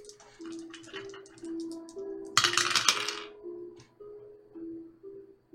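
Two eight-sided dice are rolled during a tabletop role-playing game, making a short, brisk rattling clatter that stands out briefly over soft, steady background music.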